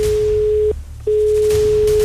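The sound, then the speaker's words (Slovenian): Telephone ringing tone as a radio morning show calls a listener to award a prize: a steady, single-pitched electronic tone in two long stretches separated by a short silent gap, clear and fairly loud, with no voices. “V glavnem, zdaj je prišel ta čas, ko kličemo nekoga, ki bo prejel nagrado.”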